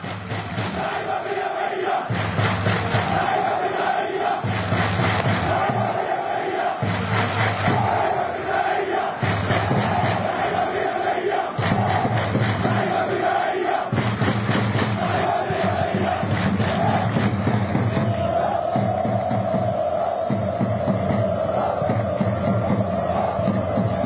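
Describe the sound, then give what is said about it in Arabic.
Ittihad Khan Younis football fans chant as a crowd ahead of a derby, a loud, unbroken mass of voices pulsing in a regular chanting rhythm with occasional shouts rising above it. “جمهور اتحاد خان يونس”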